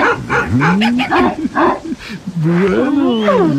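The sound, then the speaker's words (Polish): Deep, bellowing growls from a three-headed dog, several overlapping moaning roars whose pitch wavers up and down, loud and nearly continuous with short gaps. “No tak, ty nie jesteś żadnym monstrum, tylko normalny trzygłowy psiak.”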